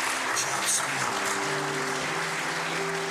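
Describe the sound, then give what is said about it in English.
Little sisters clap for a girl after her baptism, giving steady, even applause that carries on throughout without a break. “little sisters over here clapping for her, just smiling from ear to ear”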